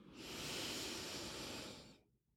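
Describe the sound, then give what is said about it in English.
A deep inhale through the nose during a guided relaxation, heard as a steady, breathy rush of air that holds for nearly two seconds and then stops, with no voices. “And let's take a deep inhale through your nose.”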